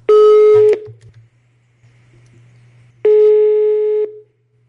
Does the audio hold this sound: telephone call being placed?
yes